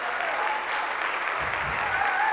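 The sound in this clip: A church audience applauds during a Sunday morning service to welcome Pastor Lisa. The clapping is steady and continuous throughout the short stretch.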